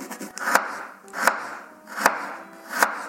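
Knife cutting ginger in a kitchen: four evenly spaced, crisp chopping strokes, each a sharp clack over a soft background hiss, with no talking.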